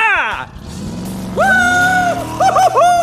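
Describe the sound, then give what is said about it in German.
Engine of the animated red race car Lightning McQueen as it speeds through a canyon: a loud revving drone that shifts in pitch, with quick surging bursts toward the end. “Wir alle kennen dieses Geräusch. Ein roter Blitz, dem das Auge kaum folgen kann. Lightning McQueen, unser liebster Rennwagen, brettert durch den Canyon und freut sich des Lebens.”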